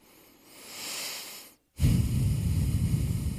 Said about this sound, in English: Maybe turn your head if you're going to breathe like that for those listeners that are just listening.